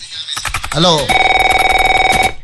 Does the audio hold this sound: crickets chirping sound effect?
no